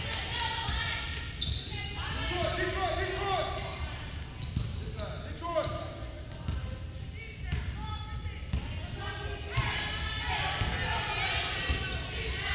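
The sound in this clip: A basketball dribbled up the court during a women's college game, many steady rhythmic bounces on the hardwood running beneath continuous play-by-play commentary.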